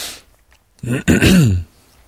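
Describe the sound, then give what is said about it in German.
A throat-clearing cough, heard as two short rough voiced bursts close together, fairly loud, with quiet surroundings before and after and no talk. “Muss ich auch gleich husten, wo da immer jemand gehustet hat.”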